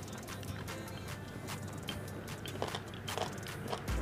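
Crunchy food being bitten and chewed, giving a few crisp, brittle crunches that stand out over a steady low background.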